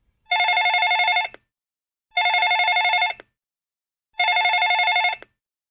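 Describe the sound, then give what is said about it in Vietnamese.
A telephone rings in three evenly spaced bursts. Each is about a second of bright, trilling electronic bell tone, with silent gaps between them. “Tiếng chuông dài dằng dặc”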